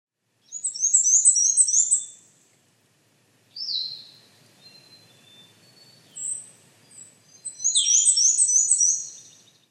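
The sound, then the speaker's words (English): An indigo bunting sings a few high, rapid, sweet phrases of paired notes, each separated by short pauses, with the last phrase long and full. “Indigo bunting.”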